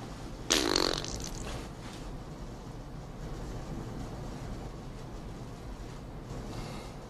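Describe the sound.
A single loud fart bursts out for about half a second as a rough, raspy blast, then gives way to a steady low background rumble with no voices.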